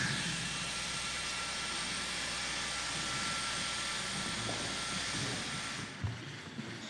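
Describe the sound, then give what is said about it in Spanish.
An airplane taking off gives a faint, steady engine roar that stays even for several seconds, then drops away near the end. “Esperamos la, el despegue del avión.”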